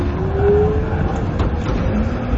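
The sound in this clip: A tram starts and pulls away down a city street, its electric motor giving a steady whine that climbs slightly in pitch over a loud, continuous low rumble.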